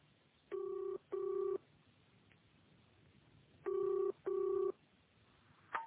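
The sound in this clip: A telephone number is dialled with touch-tone keys: four clear, even beeps of the same pitch in two quick pairs separated by a pause, followed by a short click at the end.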